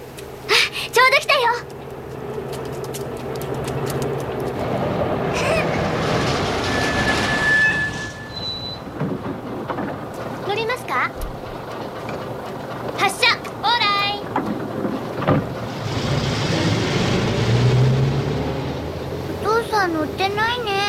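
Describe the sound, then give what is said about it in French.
Rumbling vehicle noise and rain from a scene in the film My Neighbor Totoro, with Totoro's footsteps and buses pulling up. Broad steady noise runs throughout, with brief squealing tones, and children's voices come and go. “L'arrivée de Totoro, vous allez entendre le bruit des pas. L'arrivée du premier bus, qui n'est pas le bus du père, qui est le Chabus. Et enfin le bruit du bus qui va amener le vrai père.”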